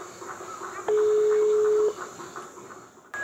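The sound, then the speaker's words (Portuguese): A telephone tone while someone calls a radio station's number: one steady beep lasting about a second, then a brief higher tone near the end. “Eu vou ligar naquela rádio lá e vou pedir essa música. Cadê o número? Eu nunca tenho o número. Aqui. Vou ligar lá agora.”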